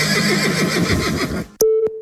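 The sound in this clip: A horse whinnies in a long, wavering neigh, tied to a Balkan dressage riding championship, followed by a sharp click and a steady high tone.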